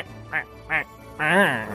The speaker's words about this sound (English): Over there, there's a whole flock of penguins.